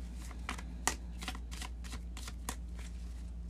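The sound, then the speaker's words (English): A deck of cards being shuffled in quick, crisp riffling bursts. The bursts are uneven, with a few sharper snaps among the rustling, and no voices are heard. “So now let's pull some cards for the week ahead and see what needs to come up for us”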